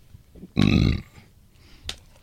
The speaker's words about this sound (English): You belch like a fucking idiot.